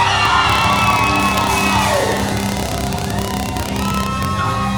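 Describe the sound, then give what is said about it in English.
A church audience shouts and screams in worship, a loud, dense roar of many voices that continues without a break. “Somebody lift your voice and scream.”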